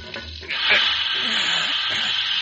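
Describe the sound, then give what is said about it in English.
Molten gold is poured into a mould, giving a steady, bright hissing sizzle that starts after a brief quieter moment and continues at an even level. “That gold hot enough to be pouring? Yeah, yeah, she is. And here goes.”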